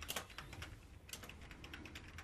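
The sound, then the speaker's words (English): Computer keyboard typing: quick, irregular clicks of keys pressed in short bursts, faint and steady throughout, with no voices. “What are you doing? I'm typing.”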